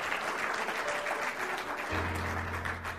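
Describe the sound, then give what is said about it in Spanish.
A church audience applauds with loud, sustained clapping from many hands, a thick, even roar; partway through, a low steady tone joins underneath. “Denle un aplauso al Señor. Gloria a Dios.”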